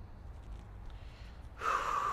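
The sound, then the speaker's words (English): A single deep inhale during a diaphragm breathing demonstration comes in as a breathy, rushing sound after a quiet stretch and holds steady and fairly loud to the end. “inhale like this. So you got to use your diaphragm, right?”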